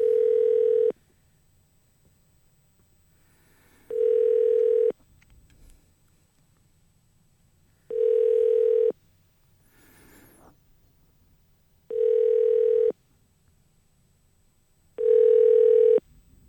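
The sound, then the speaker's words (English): Ringback tones on a telephone line while a call is transferred to voicemail: five steady mid-pitched beeps, each about a second long, repeating every few seconds with quiet line hiss between them. “Let me put you to his voicemail. He won't be in until Monday.”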